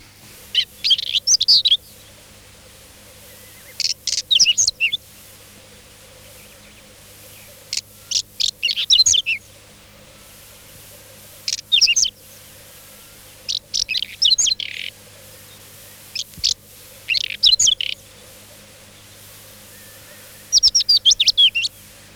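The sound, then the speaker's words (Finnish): Whinchat song: many short, high, scratchy warbling phrases, each about a second long and separated by pauses of a few seconds, sounding clear and fairly loud over a faint steady low hum. “Pensastasku.”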